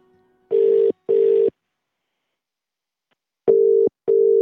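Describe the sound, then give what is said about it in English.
Ringback tone on an outgoing telephone call: two double rings, each a pair of short steady mid-pitched pulses, separated by a long silent gap. “while we're on a roll on the phones, we thought we'd try John Potter”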